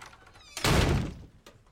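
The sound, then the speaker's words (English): A door slammed shut in a TV show scene as a man storms away from a dinner table; one heavy, booming thud sits between quieter rustling, followed by a faint knock. “George Cooper, played by Lance Barber, storms away from the table and slams the door.”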